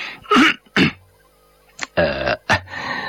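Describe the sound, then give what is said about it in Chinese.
A man clears his throat in a few short, gruff bursts, loud and sharp, with brief pauses between them and no other speech. “佐佐木清了清嗓子”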